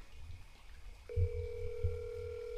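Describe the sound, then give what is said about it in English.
A telephone call ringing out, heard as a steady ringback tone that starts partway through and holds unbroken to the end, with low thumping noises underneath. “let me ask Mike. Call Mike Kroll.”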